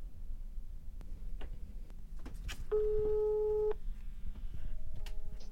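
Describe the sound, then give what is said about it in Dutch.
Ringback tone of an outgoing phone call to someone at home: one steady mid-pitched beep lasting about a second, with faint clicks and a low background hiss around it. “ik ga haar nu even bellen.”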